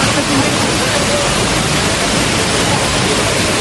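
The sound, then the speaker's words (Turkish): Rushing floodwater pouring through the streets of Istanbul during a flash flood, strong enough to sweep away motorcycles; a loud, unbroken roar of churning water that stays steady throughout. “Sel hem kuryeleri hem de ekmek teknelerine hedef aldı. Azgın sular motosikletleri birer birer sürükledi.”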